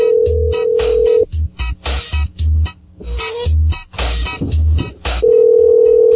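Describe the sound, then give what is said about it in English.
A telephone ringing tone plays as a call is placed: a steady, mid-pitched electronic tone at the start and again at the end, with busier, broken-up sounds in between. “So I'm going to try and call this first one, the most recent one on his list.”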